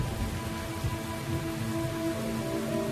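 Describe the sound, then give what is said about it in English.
Heavy, cold rain pouring down where a cheetah family feeds at a carcass, a dense, continuous hiss and patter of drops at steady loudness throughout, with no voices. “The rain pours down. Even the cold, hard rain is not going to chase them from this meal.”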